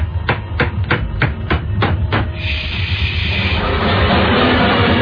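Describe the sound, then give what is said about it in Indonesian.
A hammer strikes a nail in a regular series of sharp, evenly spaced knocks over a steady noise bed, which gives way to a continuous broad hiss. “Aku pun melanjutkannya. Dan memukul lagi paku itu.”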